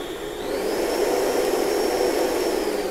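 Electric mixer creaming butter and sugar, a steady whirring motor drone with a high whine that rises in pitch early on and then holds level, running alone without talk.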